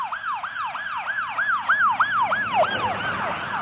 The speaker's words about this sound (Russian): Звуки сирены вновь раздались под окном.